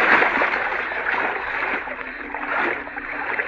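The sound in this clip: Water splashes and sloshes continuously as someone swims through a river in the dark, a steady, fairly loud churning with small surges and no clear talk.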